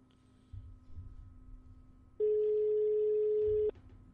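A single phone ringback tone while a birthday call is placed: a steady, even electronic tone lasting about a second and a half, stopping abruptly. Before it there is only a low rumble.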